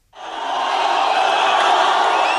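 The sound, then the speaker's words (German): A large street crowd roars and cheers in celebration of the Ethiopia-Eritrea peace agreement, the sound swelling abruptly from silence into a loud, sustained wall of many voices. “Der Jubel war riesengroß. Viele Menschen feierten im vergangenen Sommer das Friedensabkommen zwischen Äthiopien und Eritrea auf den Straßen.”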